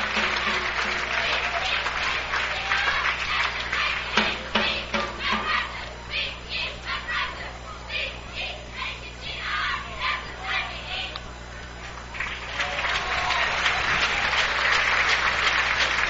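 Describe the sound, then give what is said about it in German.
Crowd applause at an American football game after the defense comes off the field, a loud sustained clapping swell with scattered cheers that thins in the middle, then rises again to a dense roar toward the end. “Applaus für die Defense. Beim nächsten Mal geht das noch besser.”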